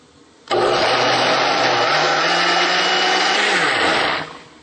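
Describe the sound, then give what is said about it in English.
A blender blends olive oil and other wet ingredients into a smooth paste, starting abruptly with a loud, steady whir over a low motor hum that runs about four seconds before the motor pitch drops and winds down. “Okay, now we have all of our wet ingredients and we want to blend this up into a smooth paste.”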